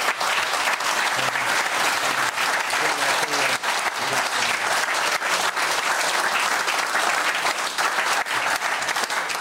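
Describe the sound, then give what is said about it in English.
Sustained audience applause for two studio guests: thick, continuous clapping from many people at a loud, even level for the whole stretch, with no pause. “And gentlemen, thank you both for joining us. And give them a hand, please.”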